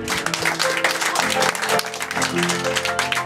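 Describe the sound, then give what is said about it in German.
Applause rings out as a dense, steady patter of many hands clapping throughout, with a voice speaking over it. “Ja Applaus.”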